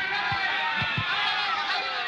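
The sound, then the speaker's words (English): Crowd roar at a heavyweight boxing fight, a broad, steady wash of noise with a few dull low thumps near the start. “The two young heavyweights stand toe-to-toe in the center of the ring, the thud of their punches echoing dully above the roar of the crowd.”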